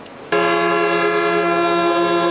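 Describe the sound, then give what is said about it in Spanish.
A vehicle horn blares loudly during a truckers' protest blocking the access roads into Montevideo on a weekday morning, starting abruptly after a brief quiet moment and holding one steady, unbroken tone. “Bocinazos, largas filas, malestar y caos fueron algunas de las postales que dejó una movilización en los accesos a Montevideo en la mañana de este jueves.”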